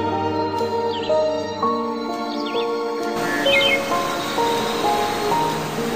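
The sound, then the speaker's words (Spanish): Birds chirping in quick, high little calls, a few scattered phrases heard over steady sustained musical tones and a soft rushing wash like surf. “Escucha el canto de las aves que te arrullan con su dulce”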